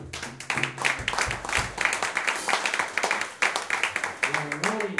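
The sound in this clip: Steady applause for an upright bass player, continuous and fairly loud from start to finish, mixed with tonal music underneath.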